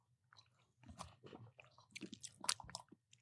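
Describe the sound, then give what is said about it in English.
Faint wet mouth sounds of sipping and swallowing a sour green apple zero-sugar soda, a series of small irregular clicks and gulps with quiet gaps between. “So should I drink it? Yeah, let's do it on three. Ready? You want to get a super source on this? 3, 2, 1, go.”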